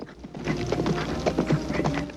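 Hooves of a horse galloping into an Old West town, a quick run of many clip-clop beats at an even, lively pace, steady and moderately loud throughout.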